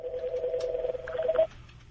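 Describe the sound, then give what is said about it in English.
A telephone rings with a steady electronic tone that holds for about one and a half seconds, then stops abruptly, leaving only faint low background hum. “Well, sometimes, the phone's ringing.”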